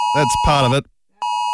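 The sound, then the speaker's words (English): The Australian emergency alert tone for mobile phones: a steady, piercing electronic tone with strong overtones. It plays under speech, cuts out briefly, then returns. “the Oz emergency alert tone will be sent to all phones at 1:30, so what, just under an hour away now. It'll sound a bit like this.”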